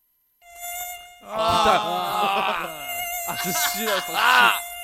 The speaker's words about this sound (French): Le bruit du moustique là, attention, le bruit le plus énervant au monde là.